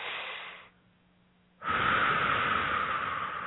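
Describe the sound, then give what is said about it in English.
A deep breath is taken in a calm, guided setting: a soft breathy rush, then a pause, then a longer and louder breath that lasts to the end, with no talking. “Okay, nice deep breath.”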